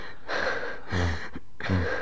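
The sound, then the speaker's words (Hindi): A patient seated on a stool takes deep breaths on a doctor's instruction during an examination. Three loud, heavy, airy breaths come in a steady rhythm, each with a rough low rasp. “गहरी सांस लीजिए”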